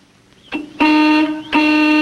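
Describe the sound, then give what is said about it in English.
A truck's horn honks near a house in a few blasts. A short first toot is followed by two loud, sustained honks with a brief gap between them, and no voices. “honks the truck's horn”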